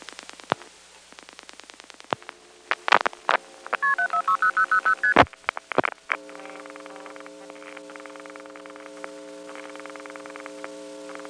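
Touch-tone keypad digits dialing the seven-digit number 746-0000 through a tandem telephone exchange, preceded by line clicks and followed by a steady, pulsing line tone; the tones are clean and moderately loud with no voices.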